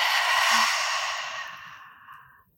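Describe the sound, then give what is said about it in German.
A deep exhale during a guided belly-breathing meditation exercise: one long, airy breath out, strongest at the start and fading steadily over about two and a half seconds, with no voice. “Noch einen tiefen Atemzug gemeinsam in den Bauch, tief einatmen. Und ausatmen.”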